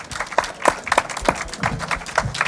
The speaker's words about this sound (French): Donc je vous demande de vous applaudir d'ailleurs et je vais le faire aussi avec vous.